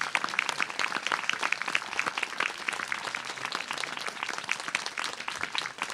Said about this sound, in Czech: dejte mu ten největší potlesk, jak to jde.